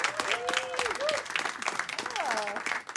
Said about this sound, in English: Please put your hands together for the amazing Natalie Morales.